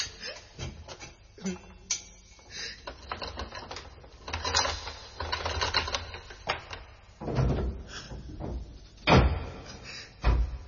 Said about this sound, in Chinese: 快啲开锁啦，我即刻押佢出去噶。 好啊，咁我而家开俾你啊。